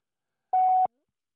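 A telephone voicemail beep plays on a call: a single short, clean mid-pitched tone that starts and stops abruptly, with silence around it.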